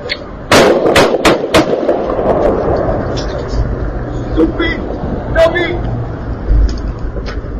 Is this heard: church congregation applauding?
no

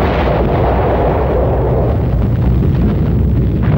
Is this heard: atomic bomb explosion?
yes

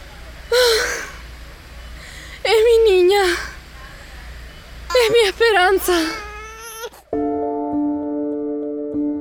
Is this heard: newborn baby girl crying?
yes

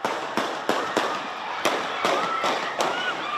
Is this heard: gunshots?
yes

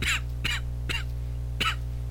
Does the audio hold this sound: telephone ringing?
no

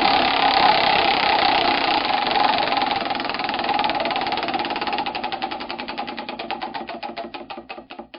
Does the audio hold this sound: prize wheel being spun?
yes

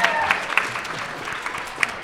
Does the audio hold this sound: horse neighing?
no

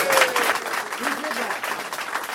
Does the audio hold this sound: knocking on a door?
no

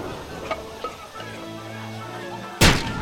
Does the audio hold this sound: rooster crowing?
no

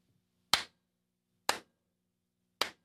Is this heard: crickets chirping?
no

